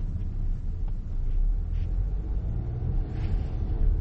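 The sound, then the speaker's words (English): Steady low rumble of road and engine noise inside a car while driving home, continuous and fairly quiet, with no talking. “And I'm currently driving home.”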